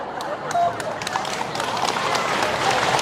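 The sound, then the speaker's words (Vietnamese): Applause from the audience at a Buddhist dharma talk: many dense hand claps in a rapid, steady patter that builds slightly and carries on to the end. “Rồi thôi vỗ tay.”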